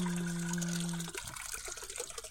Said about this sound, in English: Water is rolling in. Water is flowing. Water is coming in. Water is flowing in.